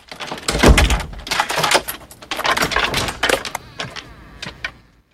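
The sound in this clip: A door being opened, with a busy run of clattering knocks and rattles that come in uneven bursts and then ease into a few lighter taps.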